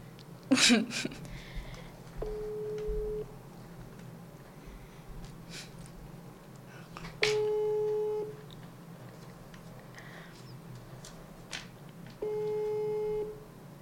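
Ringback tone of an outgoing telephone call waiting to be answered: three long, steady electronic beeps, each about a second, spaced roughly five seconds apart, with a faint click near the start and quiet background between tones.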